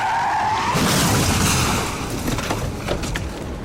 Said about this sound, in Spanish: Pensarías que saldrían heridos y lastimados, dado que fue un fuerte choque.